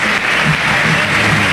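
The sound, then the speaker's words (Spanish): A loud, steady wash of crowd noise and applause at River Plate's stadium as fans salute Messi, dense and continuous throughout. “Walter, ¿cómo no va a aplaudir el público de River si es en el único estadio donde Messi está invicto a lo largo de su carrera?”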